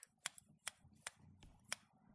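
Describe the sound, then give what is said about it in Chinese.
Scissors cutting hair during a haircut give a handful of soft, crisp snips spaced unevenly, very quiet, with faint low rustling between them. “剪刀划过主人的发丝上，会发出很好听的修理声呢。”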